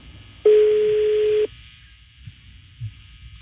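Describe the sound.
Telephone ringback tone on an outgoing call: a single steady, mid-pitched tone lasting about a second, then quiet line hiss.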